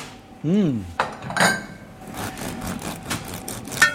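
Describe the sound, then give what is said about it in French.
A spoon scrapes and clinks against a dish while serving truffled scrambled eggs, producing several metallic knocks and gritty scrapes of moderate loudness, ending with a sharper clink. “Je me sers directement dans le plat avec cette cuillère.”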